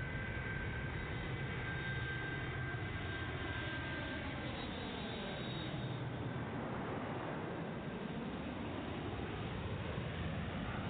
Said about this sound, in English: We're first in line for takeoff